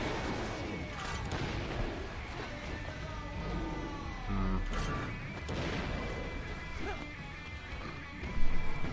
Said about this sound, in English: Shooting.